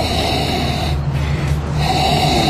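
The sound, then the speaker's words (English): Breathy, sharp sniffing inhalations made with the nose down in a wine glass, a continuous rush of airy noise with no talking. “get your nose down into the wine glass. I mean, let's be serious about it. Let's get right down in there. And I want you to inhale several times, very sharp inhalations.”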